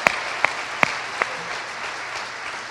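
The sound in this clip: A church audience applauds to honor fathers, a steady wash of clapping. Four sharper, louder claps stand out at even intervals early on before the sound settles into a uniform patter.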